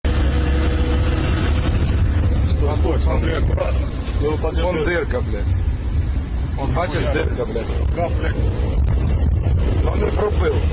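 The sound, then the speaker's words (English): A vehicle driving over a bomb-damaged bridge, heard as a steady engine rumble with constant wind buffeting the microphone and voices talking over it throughout. “But what you actually do get is some on-the-ground footage following that strike of somebody driving his vehicle over the bridge.”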